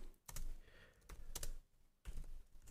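Typing a message into a chat on a computer keyboard: faint, quick clusters of key clicks come in irregular bursts with short gaps between them.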